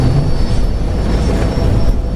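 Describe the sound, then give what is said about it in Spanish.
Airplane taking off, heard as a steady, loud, broad roar of engines and rumble that holds level throughout, with no voices. “Es solo el despegue, una vez en el aire y yo...”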